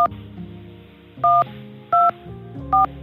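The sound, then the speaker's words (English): Telephone keypad tones dial an extension on the Macomb Correctional Facility phone line. A few loud, evenly pitched beeps are separated by short gaps, with a brief cut-off tone at the start, over a low hum. “If you know your party's three-digit extension, please dial 2501 followed by the three-digit extension now.”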